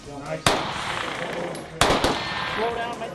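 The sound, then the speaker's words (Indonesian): Sharp gunshots from a shooting range in central Utah where teachers train with police: a few loud, abrupt cracks, each trailing off in a short decay, with a voice speaking faintly between them. “belajar menembak dan menangani luka tembak. Bang, bang.”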